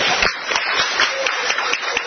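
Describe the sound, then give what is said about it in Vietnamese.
Applause at a Vietnamese community gathering as a guest professor is introduced, moderately loud patter with distinct individual claps standing out. “Kính thưa toàn thể quý vị, đứng trước mặt quý vị đây đài phát thanh Việt Nam xin cho một tràng pháo tay thật lớn.”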